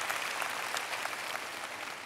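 Audience applause during a prayer gathering celebrating a 25-year wedding anniversary: steady, dense clapping from a crowd, fairly loud and continuous for about two seconds with no voices over it.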